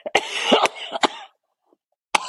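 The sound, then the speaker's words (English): A person gives a harsh fit of several rough coughs, goes quiet, and then coughs once more at the end. “Excuse me. It's making me cough.”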